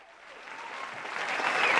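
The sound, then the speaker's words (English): Crowd applause, thick continuous clapping that swells steadily louder across the short stretch, with no voices standing out. “we always got to give you that round of applause”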